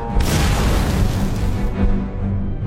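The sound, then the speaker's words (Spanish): Heavy artillery fire from a World War II battle in the southwest Netherlands in October 1944, as Canadian troops cross a road under bombardment. Loud, continuous booms blend into a dense, rumbling roar. “El capitán Frank Clark y la compañía B de los Calgary Highlanders de Canadá comienzan a cruzar la carretera bajo una intensa artillería.”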